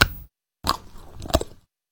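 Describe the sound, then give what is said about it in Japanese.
A bar of Meiji milk chocolate is bitten, giving three short, crisp crunching snaps with quiet gaps between them. “明治ミルクチョコレートが新しくなったそうなので、食べ比べてみます。”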